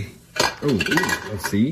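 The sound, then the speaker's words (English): A metal pot lid whose top is melted clatters and clinks against cookware as it is lifted and set aside, giving a few loud rattling knocks in quick succession. “let's put this lid over here and let's get that out of the way because it's been kind of making some noise tonight.”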